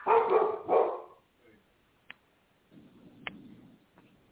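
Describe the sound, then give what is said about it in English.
A dog barks, a couple of loud barks at the start, followed by quiet with a few faint clicks and low rustling. “Look, the dog right here.”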